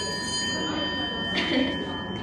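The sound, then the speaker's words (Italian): A school bell rings steadily through the whole clip, a sustained bright tone at an even level, while people talk over it. “Così passa il suono della campanella, che sennò poi magari va sopra.”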